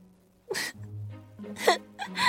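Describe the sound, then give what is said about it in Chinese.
A storyteller's voice acts out sad crying in an audio story, with a few short, wavering wails and breathy sobs that rise and fade in uneven bursts. “年轻人回过头来，吉尔达发现，原来这不是凯伊。于是他伤心的哭了起来。”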